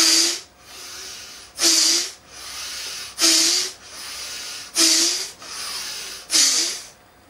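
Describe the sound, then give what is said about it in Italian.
Deep, forceful breaths in a voluntary breathing exercise, repeated five times at a steady rhythm, each a sharp hissing rush of air followed by a softer, quieter breath. “Inspiro. E lo faccio diverse volte.”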